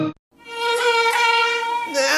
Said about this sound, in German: Frank hat einen Mückenstich, aber kein Finistilgel.